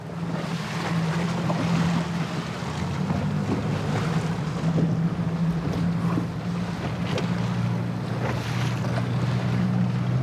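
A police boat drones across the North Sea toward a fishing cutter for a fisheries inspection, its engine a steady low hum under continuous rushing wind and water noise, loud and unbroken throughout with no voices.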